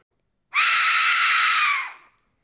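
A skull-shaped horror whistle gives one shrill, raspy, scream-like blast that holds steady for about a second and a half, then fades out.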